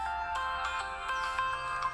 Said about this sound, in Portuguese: Olha que pobre. Olha que toque pobre.